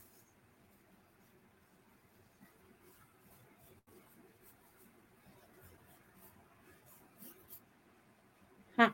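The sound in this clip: Faint pen scratching sounds as a name is written by hand, a quiet series of soft, irregular strokes and scrapes with brief pauses between them.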